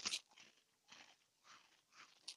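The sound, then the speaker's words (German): Crackers being crunched while eating, heard as a few quiet, crisp bites and chews spaced apart in short bursts, with no talk over them. “Wie hart knusper ich eigentlich? Ja, schon sehr.”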